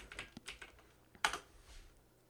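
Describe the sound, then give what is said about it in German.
Typing on a computer keyboard: many faint, quick keystroke clicks in an uneven rhythm, with one sharper cluster of taps midway. “Ach, der hat nicht mehr gegoogelt, der hat wieder geschrieben.”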